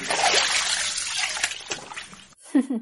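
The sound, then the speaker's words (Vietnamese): Water splashing and sloshing as two people jump into a warm bath in a steam-filled bathing room, a busy wash of splashes that thins into a few short, wet sploshes at the end. “kéo y nhảy vào trong nước”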